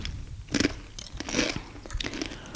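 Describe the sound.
Crunching bites of champagne-flavoured potato chips: several crisp, loud crunches with chewing between them, forming an uneven rhythm with no talk.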